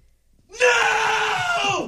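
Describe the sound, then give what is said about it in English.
A person yells loudly into a phone in a decibel-meter contest, one sustained, high-pitched shout lasting about a second and a half that stays strong throughout and dips in pitch at the end. “Yelling right into the phone.”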